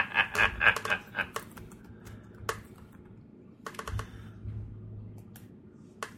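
Typing on a computer keyboard: a quick run of many clicky keystrokes at the start, then scattered, sparser key taps over a quiet background.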